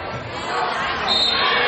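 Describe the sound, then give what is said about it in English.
A basketball bounces as a player dribbles it down the court during a high school girls' game, the thuds set within steady, loud crowd noise. “So now here's number 10 bringing the ball down the court, being guarded by Nicole Gwynn.”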